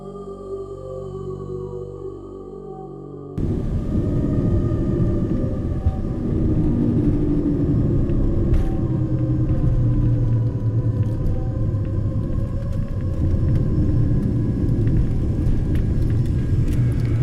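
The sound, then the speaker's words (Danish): An airplane lands on the runway at Port Katuna, heard as a loud, steady engine rumble and roar that lasts throughout after a short pulsing electronic tone at the start. “Vi landede på landingsbanen i Port Katuna.”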